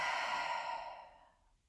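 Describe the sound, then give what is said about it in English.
A deep exhale after a held breath during a box-breathing exercise: one long, soft, airy breath out that slowly fades to quiet, with no talking. “breathe in deeply, Hold and exhale.”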